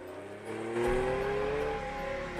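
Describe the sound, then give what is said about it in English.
A car engine pulls away in reverse after being put into gear, its steady whine climbing gradually in pitch and growing slightly louder, with no voices. “Harry puts the car into gear, then reverses away.”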